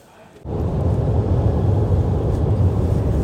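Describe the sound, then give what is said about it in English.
A car driving on the road from Sydney to Canberra gives a loud, steady low rumble of road and engine noise that kicks in abruptly after a brief quieter moment and then holds constant. “we're driving from Sydney to Canberra right now.”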